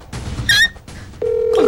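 A telephone call being placed: a brief two-tone beep, then a steady ringing tone starts partway through and holds to the end over faint background noise.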